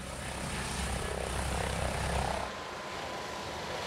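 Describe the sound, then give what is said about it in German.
An ADAC rescue helicopter, stationed near Wilhelmshaven and used for rescue flights to the East Frisian islands, drones steadily in flight. The rotor and engine noise is faint and continuous and eases slightly partway through. “Der ADAC-Hubschrauber Christopher 26 ist in Sande bei Wilhelmshaven stationiert. Er fliegt oft Rettungseinsätze auf den ostfriesischen Inseln.”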